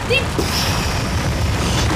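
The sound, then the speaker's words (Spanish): An avalanche sound effect, a dense, continuous rumbling roar with booming low weight, loud and steady for the whole two seconds. “Llegó la avalancha”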